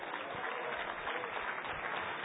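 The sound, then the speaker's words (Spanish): An audience claps during an evening church service, producing a steady, dense wash of applause that sounds muffled and dull and continues evenly throughout. “Regálele palmas al Señor en esta noche.”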